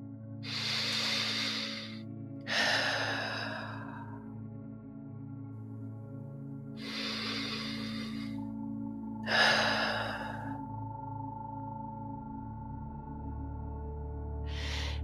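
Deep breaths in and out during a sleep meditation: four long, airy breath sounds with slow gaps between them and the start of a fifth at the end, all over a soft, steady low drone.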